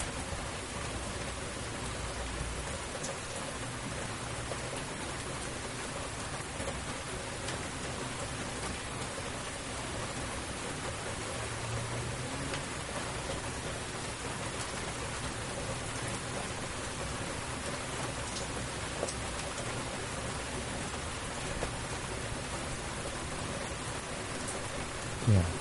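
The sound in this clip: Heavy rain pours down in a dense, even hiss of countless drops. It stays steady and unbroken for the whole stretch, with no voices over it.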